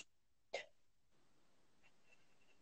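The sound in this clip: One quick, sharp breath in, a short gasping intake that sounds almost like a hiccup, faint and alone, then near silence.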